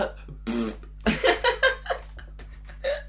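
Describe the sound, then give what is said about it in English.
A voice imitates a fart as a blown kiss, producing a run of short sputtering, breathy bursts, with a few looser voiced sounds before them. “imagine if kisses were farts, and then farts were kisses, right? So, like, the whole time is, like, you're blowing someone the kiss, you're like,”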